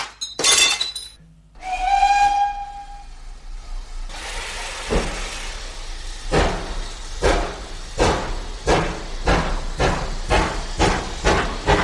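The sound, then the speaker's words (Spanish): A glass bottle smashes against a steam locomotive with a sharp crash, then a brief whistle sounds. Hissing steam follows, and heavy rhythmic chuffs steadily quicken as the train gets under way. “Deja la botella, tírala, inaugura como los barcos, tírala contra la locomotora”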